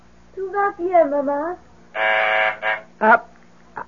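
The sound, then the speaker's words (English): A phone buzzer sounds from downstairs in an apartment. A steady, flat, buzzy electronic tone lasts about half a second, after a voice speaks, and a few shorter sounds follow. “That's the phone buzzer from downstairs, dear. I have to answer it.”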